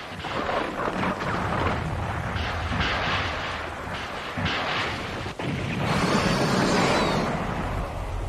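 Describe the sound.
Heavy gunfire from a battery of guns forms a dense, loud booming roar that runs almost without a break, rumbling steadily from start to end.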